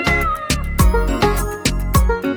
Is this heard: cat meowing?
yes